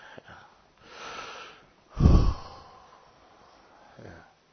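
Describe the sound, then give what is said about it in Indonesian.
A deep, airy breath is drawn in with a huffing burst in the middle, framed by a few fainter, softer breaths before and after, with no speech. “Ya kalau tarik napas bolehlah.”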